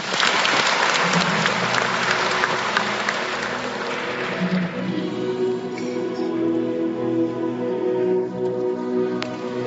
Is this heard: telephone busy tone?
no